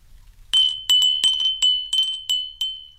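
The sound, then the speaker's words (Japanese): Glass wind chime from Niigata ringing alone, with seven bright, high strikes at an even pace. Each clear tone rings on and overlaps the next strike. “あ、風鈴ですね。”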